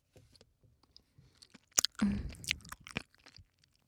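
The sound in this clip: Chewing and crunching on sweet-and-sour food: scattered soft mouth clicks, then a few sharp bites and a denser burst of crunchy chewing through the middle, fading back to quiet smacks.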